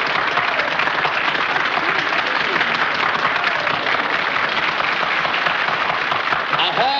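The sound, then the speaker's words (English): An audience applauds a demonstration in a thin, muffled old recording. The clapping is a continuous, dense patter that lasts the whole stretch. “Mr. Watson. The audience is now applauding you. Will you continue your demonstration?”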